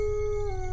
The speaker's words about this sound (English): So both of you hear the sounds of wolves howling.